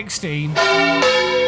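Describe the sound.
A church bell swinging through full turns in a belfry, rung by hand with a counterweight. A voice comes briefly at the start, then two loud, ringing strikes follow about half a second apart.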